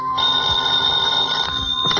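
A telephone bell rings steadily through the whole two seconds, a continuous bright tone over a low, busy background.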